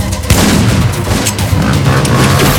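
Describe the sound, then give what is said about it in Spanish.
Gunfire aimed at police from a building's entrance during an armed heist: loud, heavy booming shots merge into a dense, continuous volley that barely lets up. “Denver, Moscú y Río comienzan a disparar a la policía desde la entrada.”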